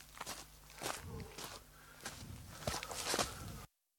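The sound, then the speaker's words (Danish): Running footsteps, many quick, uneven steps thudding and scuffing on a hard surface, growing slightly louder before stopping abruptly into silence. “Det er jo som at, at løbe til himmels. Prøv lige skridtene her.”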